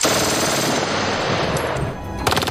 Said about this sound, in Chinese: 他在吉普前端装了2挺这种机枪，这用在突袭中再完美不过